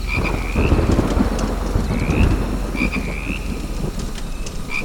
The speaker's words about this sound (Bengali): তারপর কিছুক্ষণ শুধু বৃষ্টি ব্যাঙের ডাক আর ঝিঝি পোকার শব্দ প্রচণ্ড শব্দ করে একবার বাজ পড়ল